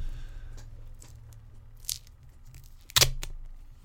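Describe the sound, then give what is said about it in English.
Tape ripping off a roll, heard as a few short, sharp tearing bursts over a low steady hum, the loudest rip coming near the end. “So give me that tape. Here we go. Rolling up the sleeve.”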